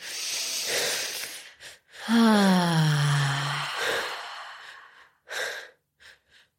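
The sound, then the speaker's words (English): Deep breathing during a guided breathing exercise: a long inhale, then a slow voiced exhale that sighs downward in pitch, followed by a few shorter, quieter breaths. “Letting the breath pattern go. That's it. And when you're ready, just breathe normal.”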